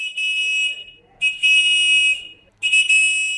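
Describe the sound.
Shrill whistling from a Taiping clay figurine toy from Zhenjiang, a traditional folk clay whistle, sounds in three sustained blasts at a steady high pitch, the middle blast the longest, with brief silences between.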